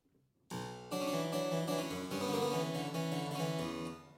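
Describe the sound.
Harpsichord played on the upper manual with one set of strings sounding: a bright plucked figure opens with a single note and then a chord, with busy, fairly quiet notes that ring on together.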